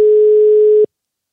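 A single steady telephone tone sounds as an outgoing call is placed, held at one mid pitch for under a second and then abruptly cut off, followed by silence.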